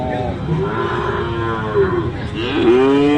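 Cattle mooing at a livestock market selling mixed and sacrificial cows: a few long, low, harmonic moos that overlap one another, with steady loud animal noise throughout.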